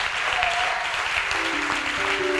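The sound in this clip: A church audience applauds to acclaim God with dense, continuous clapping at a steady level, and held musical tones come in beneath it in the second half.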